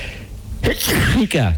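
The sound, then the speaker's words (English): A sneeze caught on an open microphone after a missed mute button, a sudden loud breathy burst followed by short voiced sounds. “Then I tried to hit it before I sneezed. It was building up.”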